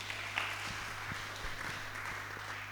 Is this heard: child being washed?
no